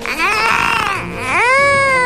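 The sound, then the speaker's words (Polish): An infant cries in two loud, drawn-out, high wailing bursts with a short break between them, and no other sound competes. “Proszę, będzie płakać.”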